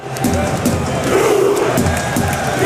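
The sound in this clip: A crowd in Oslo cheers and roars as Norway's World Cup squad returns home. Many voices keep up a loud, unbroken din for the whole short stretch.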